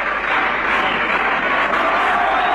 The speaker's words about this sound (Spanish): Ahí aplaudiendo gente de Seré, de Timote, de Tejedor, de Villa Sauce, de Intendente Alvear,